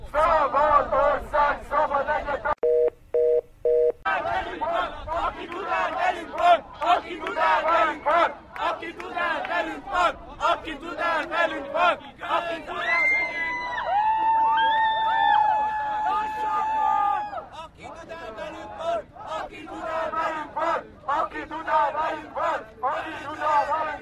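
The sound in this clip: A crowd of protesters chanting slogans in loud, rhythmic unison, the shouted phrases repeating in a steady beat with brief gaps and a dense murmur of voices between chants.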